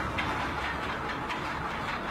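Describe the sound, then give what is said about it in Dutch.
A large ship's anchor chain rattles as the anchor is lowered into the North Sea, a steady, dense metallic clatter of heavy links that stays loud and even throughout. “Ik hoor al wat geluiden. Van die schalmen, die hele grote kettingen.”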